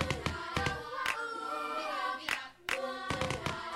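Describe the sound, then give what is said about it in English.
Rhythmic hand claps: many sharp, bright slaps in an uneven pattern with short gaps, over a steady sustained tonal background. “I can clap it. And I can tap it.”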